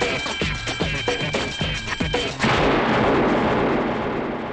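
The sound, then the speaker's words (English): A gunshot in a tense street confrontation comes as one heavy blast after a string of sharp knocks, followed by a loud, sustained roar of noise. “You didn't have to shoot him, man, to move!”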